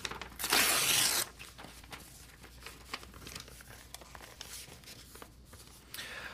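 An envelope is torn open in a single loud rip lasting about a second, followed by quieter paper crinkling and rustling with scattered small crackles.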